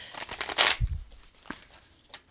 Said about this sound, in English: All right, pulling you a few cards here.